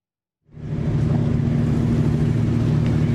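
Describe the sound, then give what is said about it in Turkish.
The deep, steady engine drone of a 215-metre, Bahamas-flagged pipe-laying ship passing through Istanbul's Bosphorus starts abruptly after a brief silence, then holds as an even, low rumble. “İtalya'dan Romanya'ya giden 215 metrelik boru döşeme gemisinin geçişi sebebiyle Boğaz hattı çift yönlü trafiğe kapatıldı.”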